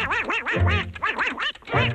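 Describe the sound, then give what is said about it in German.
A cartoon duck voice quacks in a quick, raspy run of wobbling, nasal squawks with a short gap near the end, then a final burst. “Ich habe hier die wahrscheinlich bekannteste Ente der Welt für euch.”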